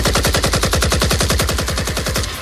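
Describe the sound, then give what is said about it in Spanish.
Automatic gunfire from AK-47 rifles, fired by drug traffickers at police agents: one long, loud, unbroken burst of many rapid, evenly spaced shots. “Cuando intentaron actuar, fueron recibidos a tiros por los narcos.”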